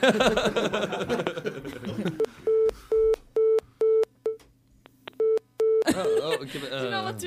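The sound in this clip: Telephone busy signal from overloaded phone lines, a rapid run of short, evenly spaced mid-pitched beeps with a brief break, with people talking just before and after.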